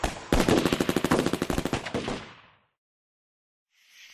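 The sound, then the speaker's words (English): Rapid automatic gunfire erupts in a night ambush, a dense burst of many quick shots lasting about two seconds, then dropping to silence before a faint hiss at the end. “The night exploded into a bedlam of shooting and tumbled death.”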